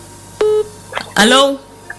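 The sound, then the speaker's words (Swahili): A single telephone keypad tone sounds as a listener's call connects on a studio line, followed by a caller's voice speaking over the phone. “Basi kuna msikilizaji hapa amepiga simu, ngoja tumsikie kwenye line.”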